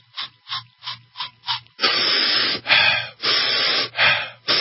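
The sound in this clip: Aerosol spray pumped in a quick, even run of short hissing bursts, used as an inhaled home remedy for a chest cold, followed by several longer, louder breathy hisses as the mist is drawn in.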